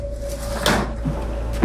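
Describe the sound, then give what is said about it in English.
A kitchen drawer is pulled open, giving a short sliding rattle and scrape, with a few smaller knocks after it, over a steady low hum. “In the kitchen, he pulls open a drawer and takes out a fireplace lighter.”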